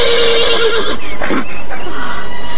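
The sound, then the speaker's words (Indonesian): An agitated, angry horse gives a loud whinny, pawing at the ground, its cry falling in pitch before it breaks into a few harsh, breathy bursts. “Kuda itu mengais-ngais kakinya dan sesekali meringkik keras dengan sikap yang kelihatan marah.”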